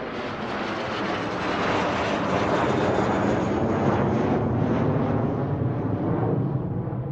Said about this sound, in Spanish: y se subió a su avión privado